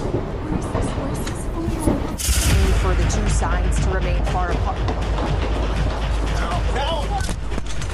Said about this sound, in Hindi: आप गोलियों की तड़तड़ाहट सुन सकते हैं।